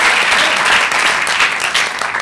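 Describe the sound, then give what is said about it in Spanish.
A church audience applauds in praise of God, dense, loud, steady clapping from many hands that fills the short moment without a break. “Démosle un aplauso al Señor, hermano.”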